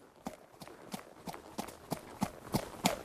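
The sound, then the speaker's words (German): A horse carrying a rider clip-clops along a lakeshore path, a faint run of evenly spaced, hollow hoof knocks in a steady walking rhythm that grows slightly louder toward the end. “Den Uferpfad entlang kam nun ein Mensch auf einem Pferd angeritten.”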